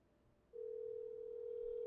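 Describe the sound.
A telephone ringing tone on an outgoing call, heard as a steady, single-pitched electronic tone that starts about half a second in and holds unbroken to the end.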